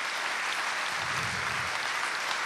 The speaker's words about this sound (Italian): stasera voglio un applauso per la terza anima del dono di Rossana.